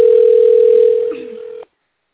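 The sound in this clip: A steady single-pitched telephone tone sounds while a call waits to connect through an office phone line, holding evenly for about a second and a half before cutting off abruptly into silence.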